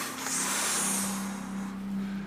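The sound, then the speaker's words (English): A long, deep inhalation makes a steady, airy hiss for about a second and a half. A faint low hum runs beneath it. “Take a deep breath in.”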